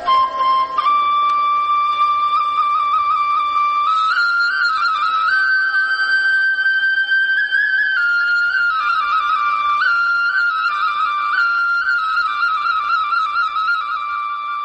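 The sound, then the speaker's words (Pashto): A shepherd's flute played by a flock's shepherd leaning against a large rock: a clear, whistle-like melody of long held notes that shift in small steps up and down, steady and unaccompanied, with no voices. “خو د دغه رمې شپونکي بیا دلته یوې لویې تیږې ته ډډه لګولې او شپېلۍ ژغوي.”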